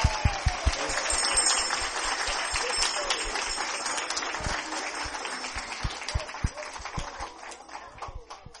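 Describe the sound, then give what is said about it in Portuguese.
Applause from an audience at a 2017 Christmas gospel event, a dense, steady patter of many hands with sharp individual claps standing out, carrying on for the whole stretch with voices mixed in. “Mais palmas, por favor.”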